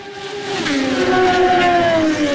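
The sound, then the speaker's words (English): A Triumph racing motorcycle roars past during a road race at the bottom of a hill, its loud, sustained engine note sliding downward in pitch as it goes by. “Here's the next bike. Triumph, I think.”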